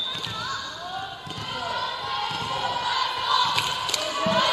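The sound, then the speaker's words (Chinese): A volleyball serve at a school match: a few sharp ball thuds stand out over steady crowd noise, with a voice speaking throughout. “重庆巴蜀12号，吴子杰，副攻手，身高1.78米。现在发球的是18号。”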